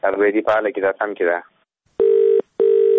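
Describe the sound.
Someone talks, then two loud, even telephone tones sound one after the other, each about half a second long, separated by a brief silence.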